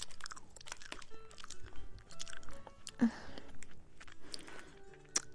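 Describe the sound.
Crunchy biting and chewing of sachima, a Chinese sweet pastry: intermittent crisp crunches and soft mastication noises, with a couple of sharper, louder bites standing out among the quieter chewing.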